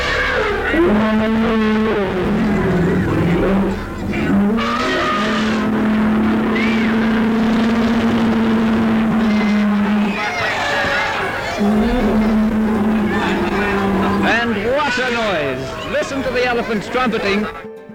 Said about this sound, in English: what a noise! Listen to the elephants trumpeting. Oh, wow. My goodness. They sounded very angry too.